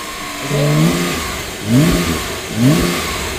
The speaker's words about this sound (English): Would I be right in saying that that is maybe not actually a Porsche car? No, it is a Porsche car.